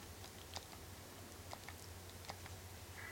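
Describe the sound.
Soft, irregular clacks of a typewriter used to save progress in a Resident Evil video game, a few scattered keystrokes over a faint low hum.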